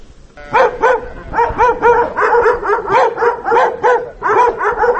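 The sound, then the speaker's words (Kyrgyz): A rapid run of many loud barks mixed with higher yips comes from purebred taigan sighthounds at a kennel in a mountain village. The barking is continuous and energetic, with no talking. “Азыр питомникте 30 ашуун алгыр тайганы бар.”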